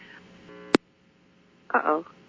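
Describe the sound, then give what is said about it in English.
Telephone line cutting off with a sharp click, followed by near silence and then a brief, bright tonal burst as the call is redialed. “the phone disconnected, so let's reconnect.”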